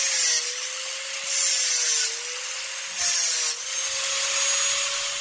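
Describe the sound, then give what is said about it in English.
An angle grinder running with a steady high motor whine, broken by a few bursts of harsh, gritty cutting noise. “The answer is angle grinder, I'm afraid”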